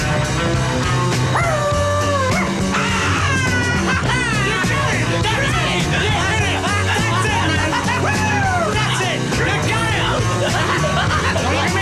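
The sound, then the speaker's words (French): A man imitates a dog, barking and yelping at the improvised end of a rock song. The repeated, pitch-sliding barks ride loudly over the full band, which keeps playing throughout. “parce qu'il l'un des deux a commencé à faire le chien”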